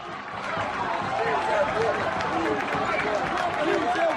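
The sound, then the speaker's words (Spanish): Football fans chant 'sí se puede' at the packed Hermanos Llana ground after Astur scored to make it 1-2 against Valladolid in a cup tie, about 1,500 voices in a loud, steady roar throughout. “Ese sí se puede de la gente, es cuando marcó Robby Toral para el Astur el 1-2. Y ahí hubo un momento en el que la gente se vino arriba.”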